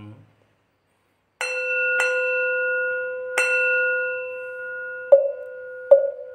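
A bell tolls in five separate strikes, unevenly spaced. Each sharp strike rings out into a long, sustained hum, and the last two are duller and sharper-edged.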